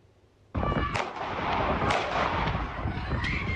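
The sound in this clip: Gunshots fired at a crowd in a street: a loud sudden blast opens into dense, continuous rough noise, with a few sharper cracks standing out along the way.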